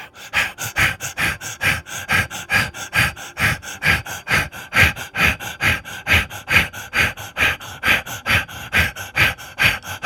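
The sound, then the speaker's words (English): Rapid, forceful breathing during a guided breathing exercise: a fast, even rhythm of sharp breaths, about three per second, loud and regular throughout with no talking. “Return to the rapid breath.”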